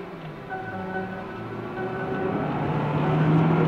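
A car speeds along above the speed limit. Its steady, low engine and road rumble swells gradually louder, with a faint tonal whine riding above it.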